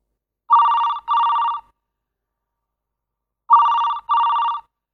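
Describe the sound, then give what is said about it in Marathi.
A telephone rings with an electronic trilling tone, sounding in two double bursts separated by a pause of silence. “2 दिवसाने रात्री 10 वाजता भाचीचा phone आला।”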